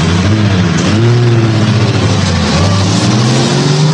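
Cars driving across a town square, a steady loud wash of engine noise with low engine tones that drift up and down in pitch.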